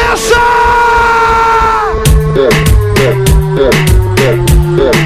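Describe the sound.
A crowd of women shouts at a birthday party with DJs: a loud sustained collective cry whose pitch drops as it fades, then a pulsing, evenly spaced dance beat takes over.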